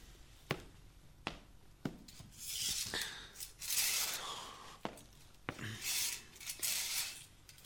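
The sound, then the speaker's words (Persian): Curtains are drawn aside: a few sharp clicks and two longer swishing slides, all faint. “میشه پرده ها رو کنار بکشید؟ البته.”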